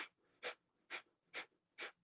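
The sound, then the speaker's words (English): Forceful breaths pumped out through the nose in a dragon-breath exercise, a quick, evenly spaced series of sharp, airy puffs. The puffs are fairly faint and separated by short silences. “And to do the dragon breath, we're going to breathe in through the nose, and we're going to pump out breaths out of our nose like a dragon would pump out fire.”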